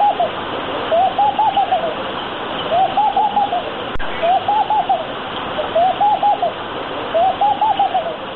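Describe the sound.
A musichi dove coos in repeated short phrases at a steady rhythm, about six in all, each a soft, mid-pitched, warbling call. A constant hiss like running water sits beneath them.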